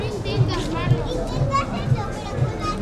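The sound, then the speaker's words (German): Children's voices at play between restaurant tables in the harbor lanes of Ibiza at night, a lively babble of young chatter and calls with a steady low thump pulsing regularly underneath. “Kinder spielen zwischen den Tischen der Restaurants.”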